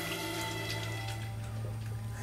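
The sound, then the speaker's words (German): Water runs steadily from a tap while a father washes his hands, a continuous even hiss with a faint low hum beneath it. “Lass deinen Vater in Ruhe die Hände waschen.”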